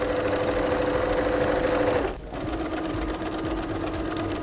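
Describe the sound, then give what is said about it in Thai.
A sewing machine stitches along a bag seam with a steady, even mechanical whir. It dips briefly partway through, then resumes at the same pace. “จากนั้นเราก็ค่อยๆพับแล้วก็เย็บไปตามรอยของแนวกระเป๋านะคะ”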